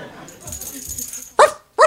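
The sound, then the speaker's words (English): A dog named Tanner barks twice near the end, two loud, sharp yaps close together after a quieter, murmuring stretch. “Oh, down boy. Sorry about that. I'm forever Barbie with Tanner the dog.”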